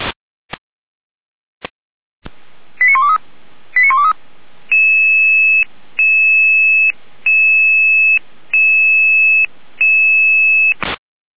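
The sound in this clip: Fire brigade alert tones: a few sharp clicks, then two short bursts of rapid warbling tones, followed by a series of long, steady tone pulses in an even rhythm. The tones are loud and there are no voices.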